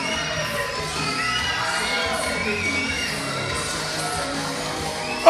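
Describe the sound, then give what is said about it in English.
A loud crowd of children shouts and cheers at a live strength show, a dense, steady roar of young voices that holds at one level across the whole stretch. “that's a loud bunch of kids right there.”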